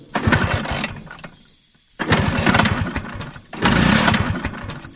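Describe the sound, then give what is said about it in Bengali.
A scooter engine that won't start cranks in three loud rasping bursts, each churning rhythmically without catching, with short quieter gaps between attempts. “Engine আর চালু হয় না”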